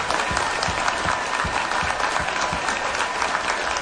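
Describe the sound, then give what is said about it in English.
Audience applause fills a standing ovation at a country music show, a dense, even wash of clapping that holds steady and loud from start to finish. “You've got more standing ovations than we ever get.”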